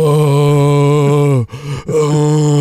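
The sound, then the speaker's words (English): A voice imitates a drawn-out groan of someone receiving a communion wafer on the tongue: a sustained, low, rich moan that breaks off briefly in the middle, then resumes at the same steady pitch. “moan when it's putting it in, groaning as the wafer is pressed into your outstretched tongue”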